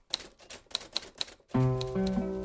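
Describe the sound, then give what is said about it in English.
Typing on a typewriter: a few sharp, separate mechanical keystrikes clack in an uneven rhythm, then a louder sustained ringing, rattling tone takes over to the end. “Well, that's the status, so to speak, of my life with my beloved, beloved typewriter.”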